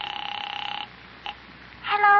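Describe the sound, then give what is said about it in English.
A telephone call being placed: a rapid, evenly pulsing two-tone phone signal, then a brief click and quiet, before a voice starts. “I'll just make a casual phone call over there.”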